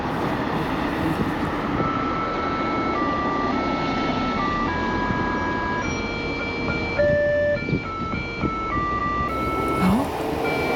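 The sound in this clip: A special horn at traffic lights by a zebra crossing sounds a series of steady electronic tones that step between different pitches. They ring out over constant, broad street noise.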